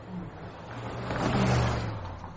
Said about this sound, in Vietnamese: Nghĩa sẹo vừa kéo bạn mình lên xe rồi tiếp tục phóng đi